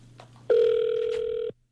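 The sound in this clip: Ringback tone of an outgoing telephone call: one steady, loud electronic tone lasting about a second, starting and stopping abruptly.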